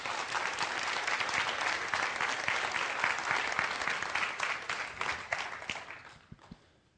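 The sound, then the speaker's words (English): An audience applauds to welcome two speakers at a talk, with a dense, even clapping that holds steady for several seconds, then thins to a few scattered claps and fades out. “You can give them a hand if you want.”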